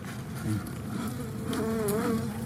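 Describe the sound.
Honeybees buzz as they fly back into their hive, forming a continuous, dense drone with a wavering pitch that swells and dips throughout, with no talking.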